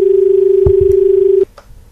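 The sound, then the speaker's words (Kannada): A steady, single-pitched telephone line tone from a call being dialled and connected. It holds for about one and a half seconds, then cuts off abruptly, followed by a few faint clicks. “ಗೆಳತಿಯರು ಪ್ರಯತ್ನ ಮಾಡ್ಲಿಕ್ಕತ್ತಾರ ಮಂಜುಳ, ಆದ್ರ ಯಾಕೋ ಕರೆಗಳು cut ಆಗ್ಲಿಕ್ಕತಾವ ಅಂತ ಅನಿಸ್ತದ.”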